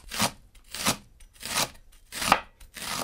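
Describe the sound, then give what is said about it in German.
A freshly sharpened knife chopping leek into medium pieces: five crisp, crunchy cuts at an even, unhurried rhythm, with no talk. “Und dann schneiden wir den Porree mal so in mittelgroße Stücke.”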